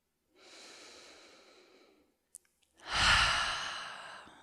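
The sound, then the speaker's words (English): A deep breath in and out during a guided relaxation: a long, soft airy inhale lasts nearly two seconds, then after a short pause and a click comes a louder, fuller exhale that slowly fades away. “How about we close our eyes and take a full breath in.”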